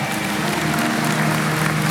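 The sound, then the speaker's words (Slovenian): An audience at a song contest applauds after a round of jury votes: dense, steady clapping from a crowd, loud and even from start to finish. “En aplavz za to prvo etapo, hvala.”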